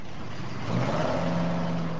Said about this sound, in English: Four massive dump trucks empty their loads